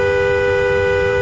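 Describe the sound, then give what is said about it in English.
A car horn sounds from inside the car as one unbroken, loud, steady blast lasting about a second. “this is the sound of a car horn from inside a car.”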